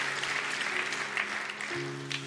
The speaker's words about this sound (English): Come on, let's clap for everyone in Philly.